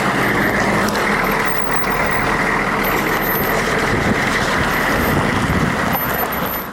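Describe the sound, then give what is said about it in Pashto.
A private car drives along an unpaved road toward a front line. The engine and road noise form a loud, steady rumble that continues without a break. “موږ د خپل شخصي موټر په واسطه د نادلي ګروپ شاش ته پر غزیدلي خامه سړک د جنگ لومړۍ کرښې ته ځو”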